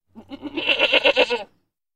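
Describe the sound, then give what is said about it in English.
A goat bleats once, a single loud, wavering call lasting just over a second with a pulsing, quavering quality. It starts softly, swells, then cuts off into silence. “Listen and say. Goat.”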